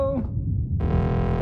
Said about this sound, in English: What was that? One of the arcade machines made a noise.